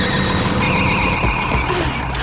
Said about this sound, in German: So konnte sie die Mähmaschine rechtzeitig stoppen